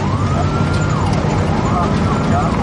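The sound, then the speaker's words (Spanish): Fire trucks race toward a blaze in the middle of the night. A siren wails, rising and falling, over a loud, constant rumble of engines and road noise. “Se dirigen a la zona del incendio. Una y media de la madrugada. Vasily Ignatenko viaja en uno de los camiones.”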